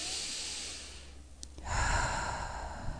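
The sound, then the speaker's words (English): Ujjayi breathing demonstrated during a relaxation exercise, a slow throaty breath with a hushed, rasping hiss that grows louder and rougher partway through, heard alone without talk. “The Darth Vader breath or the Ujjayi breath.”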